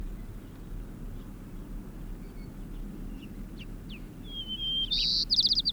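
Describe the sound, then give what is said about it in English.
A white-crowned sparrow sings: faint, thin chirps, then a clear whistle and a buzzy trill in the final second, over a steady low rumble. “White-crowned sparrow, eh?”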